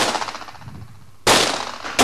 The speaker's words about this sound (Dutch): En natuurlijk is er schietonderricht. Linker elleboog op de knie. Wapen is gestrekt op het doel.